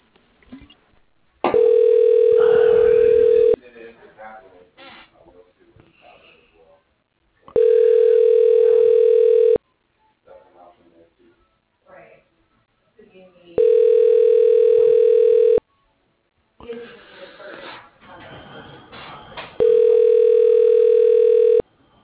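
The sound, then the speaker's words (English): A telephone line sounds four long, steady, even tones while an extension in an employee directory is dialed, with quiet gaps between them that hold faint background sound. “Dialing.”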